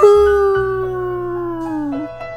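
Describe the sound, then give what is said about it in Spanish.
A wolf howl: one long, loud, sustained tone with rich harmonics that holds steady, dips slightly in pitch near the end, then briefly rises again. “Salir a gritar, aullando como el lobo,”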